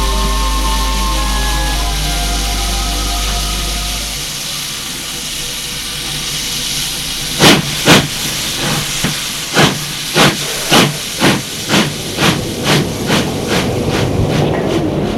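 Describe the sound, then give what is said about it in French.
Steam hisses from a train at a busy Paris station: a low steady rumble, then a long run of many sharp, loud hissing bursts in an even rhythm. “La gare de Lyon est pleine de monde.”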